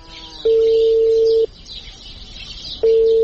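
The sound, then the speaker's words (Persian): A telephone ringback tone from an unanswered call: two long, steady mid-pitched tone bursts separated by a quiet gap, the second starting near the end, with no voices. “زنگ تیر میکنه خو جواب نمیده.”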